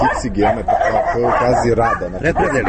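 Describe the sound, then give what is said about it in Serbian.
Stray dogs barking and yipping during a walk through a garden: loud, overlapping, continuous yaps with whining tones. “pse lutalice koje Radakovići sebi za ljubav usvajaju i koji nas također u maloj šetnji kroz baštu pozdravljaju”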